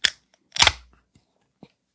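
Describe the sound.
A 16-ounce beer can is opened with a sharp crack, then a louder fizzing pop-hiss of escaping gas a moment later, followed by a few faint clicks.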